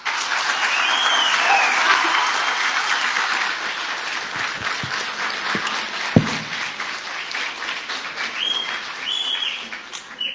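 Sustained audience applause welcoming a new deputy convener of the Umkhonto weSizwe Party in KwaZulu-Natal, with dense, steady clapping from a large crowd that continues throughout.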